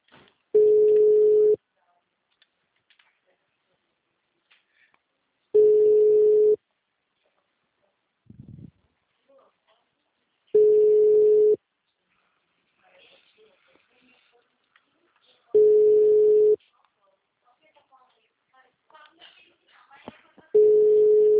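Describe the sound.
Telephone line tones sound as five steady single-pitched beeps, each about a second long, separated by longer silences with faint scattered noises.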